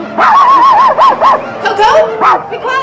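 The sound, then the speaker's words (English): Several dogs bark on a city street lit by neon signs, a loud run of yelping, wavering calls that rise and fall in pitch in quick bursts, some drawn out almost like howls. “Other dogs bark on a street lit by neon signs.”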